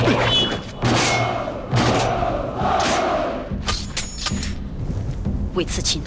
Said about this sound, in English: The commanding officer raises his arm, and the soldiers bang their shields.